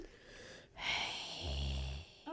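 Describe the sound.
A person imitates a villain's deep, mechanical breathing with a long, hissing inhale followed by a low, rasping exhale. The breaths are fairly quiet and slow, and no words are spoken.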